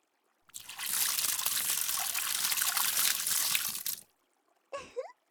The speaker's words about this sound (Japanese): はい、流しますよ。目はちゃんとつむっていてね。